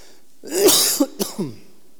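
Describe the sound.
A cough and throat-clearing from a tickle in the throat: one rough, drawn-out rasp followed by a few short hacks, alone and fairly loud.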